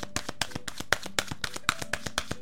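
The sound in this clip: Message cards are shuffled and drawn with many quick, crisp flicking taps in a fast, fairly even rhythm, soft and without speech.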